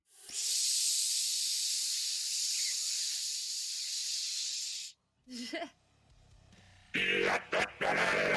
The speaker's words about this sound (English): And up above, the fire suppression system starts to hiss.